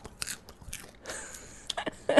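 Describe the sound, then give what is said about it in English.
Popcorn is shifted about and crunched in faint, crisp crackles and rustles, a string of irregular short bursts with brief pauses between them. “I think my producer's going to cringe, but listen to this, everybody. I'm going to move the popcorn.”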